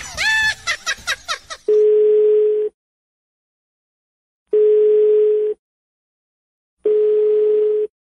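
Telephone tone after a call is hung up: a brief jumble of other sounds, then three steady mid-pitched beeps, each about a second long, separated by long silent gaps.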